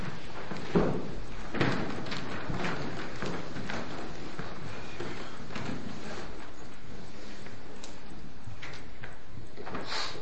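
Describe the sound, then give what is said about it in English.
A church audience rises to its feet, a continuous wash of rustling and shuffling with a few soft thumps from seats early on, staying low and even throughout. “Let's all stand to our feet with our heads bowed and our eyes closed.”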